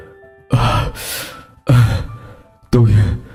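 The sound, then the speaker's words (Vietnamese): Heavy panting from a frightened, sweating man just woken from a nightmare: three long, breathy gasps, each loud at its start and then trailing off, separated by short pauses. “chú Trung vẫn chưa bình tĩnh, vừa thở hổn hển vừa nói”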